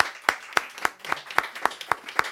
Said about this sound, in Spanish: Vamos a dar palmas al Señor por eso.